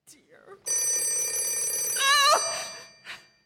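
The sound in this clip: A telephone bell rings in one long, steady metallic burst lasting well over a second before cutting off, and a brief, fainter sound follows after a short pause.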